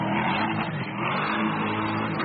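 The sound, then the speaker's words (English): A Corvette E-Ray hybrid sports car's rear-mounted gas engine revs in a loud, steady, throaty roar that swells slightly and holds for the whole stretch, with no voices over it. “if you're looking for something sportier, the new Corvette E-Ray has a big beast of a gas engine in the back”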